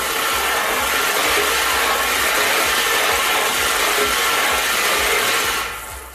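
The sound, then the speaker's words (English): Lottery ball machine spinning numbered balls: a loud, steady whirring rush with a constant rattle, easing off and fading at the end. “We're going to put all the balls in, and let's get to spinning.”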